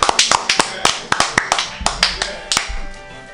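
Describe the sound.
Hand claps from a small group celebrating a graduate, sharp and irregular, with many separate claps and no steady roar of applause.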